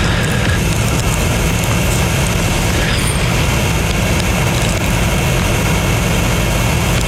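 Mechanical hare lure running at a greyhound track, a loud, continuous motorized whine and rumble that stays steady for the whole stretch, with no voices.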